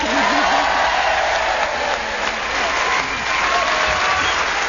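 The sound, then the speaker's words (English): Studio audience applauding a panel-show contestant: sustained, dense clapping, with a voice briefly audible over it at the start. “you've certainly got bigger applause from this audience. They're rooting for you.”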